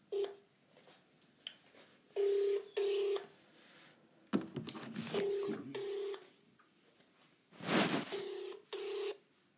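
Telephone keypad dialing tones come as several short, steady beeps at irregular intervals, fairly quiet. Brief rustling bursts of noise fall between some of the tones.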